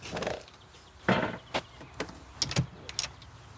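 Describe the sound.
A rental cabin door being opened, heard as a few sharp clunks and clicks in quick succession, fairly faint, with no talk over them.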